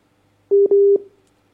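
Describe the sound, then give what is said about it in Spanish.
A telephone busy tone sounds after a dropped call: a steady mid-pitched beep cut by a brief gap into two loud pulses against silence. “Se cortó. Bien, se cortó. Vamos a tratar de recuperar entonces la llamada.”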